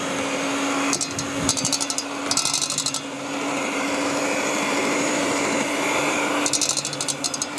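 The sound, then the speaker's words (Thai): A blender running at speed one on a small batch gives a steady, even motor whir that holds throughout, with a few brief high buzzing bursts over the drone and no talk. “เอาตัวเครื่องปั่นนะคะให้ตัวที่เป็นเนี่ยลงไปก่อนนะคะแล้วก็ปั่นนะคะ สปีดเบอร์หนึ่งนะคะ ใช่ค่ะเราทำปริมาณน้อยอาจจะสปีดหนึ่งก็พอนะคะค่อยๆปั่นไปนะคะ”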